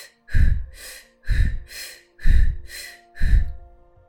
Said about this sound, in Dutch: we gaan 1 minuut versneld ademhalen. Dus in, uit, in, uit, in, uit.